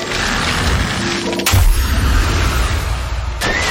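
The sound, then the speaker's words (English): Freeze Ray attack in a monster-battle video game: a dense, loud burst of game sound effects with a sharp crashing hit near the middle and another short hit just before the end. “Choose a move. Freeze Ray. Urtana used Freeze Ray.”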